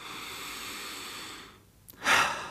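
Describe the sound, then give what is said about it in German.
A slow breath drawn in during a calm breathing exercise with a hand resting on the chest. A steady soft hiss leads into one short, loud, airy rush near the end. “leg mal als kleine Übung die Hand auf deine Brust, atme langsam ein”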